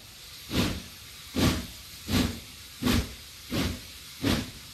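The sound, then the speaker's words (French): A steam locomotive chuffs along with six evenly spaced, hissing bursts of exhaust steam in a steady rhythm, each a short loud puff rising out of a quiet background. “Au milieu du 19e siècle, soudain, voit passer une locomotive à vapeur.”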